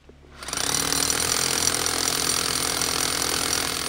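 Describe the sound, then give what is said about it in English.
Rock drilling by a trail crew boring holes into a big boulder in the woods while repairing a hiking trail: a loud, harsh, continuous rattling drone that starts abruptly and runs without a break. “This is the sound of a team of people who have carried hundreds of pounds of equipment over a mile into the woods in order to fix a hiking trail that is falling apart. They drill holes into a big boulder,”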